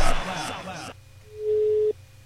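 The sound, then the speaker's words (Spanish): An outgoing telephone call rings while waiting for an answer. A brief stretch of talk is followed by a single steady, mid-pitched ringback tone lasting under half a second, then quiet. “Sale la llamada. Esperamos que conteste.”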